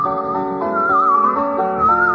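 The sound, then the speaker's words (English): A man whistles a wavering, high melodic line over sustained, layered tonal music. “Everybody likes whistling. I am a serious composer. It was for solo piano. There is a man whistling now.”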